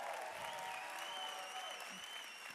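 A church audience applauds in a continuous, even wash of clapping that holds steady throughout and stays fairly faint.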